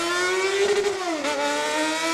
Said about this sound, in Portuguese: Motos de alta cilindrada.